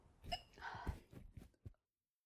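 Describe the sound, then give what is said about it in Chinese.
Hiccups from a person: a few short, sharp catches with a low jolt near the middle, mixed with brief voiced sounds, then silence at the end. “我在打嗝，你能不能给我一杯水？”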